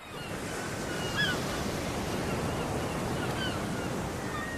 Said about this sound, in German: Ich stehe auf einem Pier neben Kormoranen und Pelikanen. Vor mir das Meer.